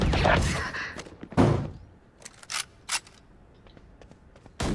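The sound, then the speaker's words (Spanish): Shotgun fire in a video game: several sharp, booming blasts at irregular intervals, separated by lighter clacks and thuds. “¡No puede ser! ¡Que es una escopeta! ¡No puedes fallar!”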